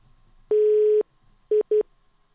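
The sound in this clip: Telephone line tones after a call drops: one long, steady mid-pitched beep, then a pause and two short beeps close together, with faint hiss between them.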